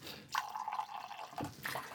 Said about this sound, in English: I'm gonna thin it out with just a little bit of water